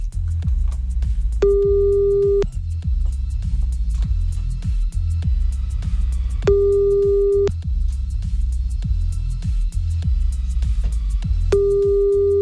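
Telephone line tone while calling back after a call was cut off: a steady mid-pitched tone sounds three times, each about a second long, separated by long even pauses over a constant low throbbing hum.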